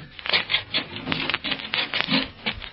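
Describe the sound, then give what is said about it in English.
Gritty scraping of shoes as mud is scraped off the feet: a series of rough, rasping strokes in a loose rhythm, heard alone with no talk. “Scrape the mud off your feet.”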